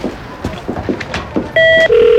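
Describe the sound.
An office telephone rings with a loud, steady electronic tone that drops to a lower pitch partway through, after a short stretch of quieter rustling.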